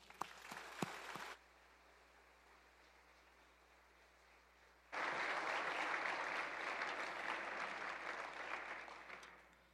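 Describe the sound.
Audience applause welcoming a speaker to the front at a church service, breaking out suddenly after a few seconds of quiet and then continuing as a loud, dense clatter that eases slightly at the end.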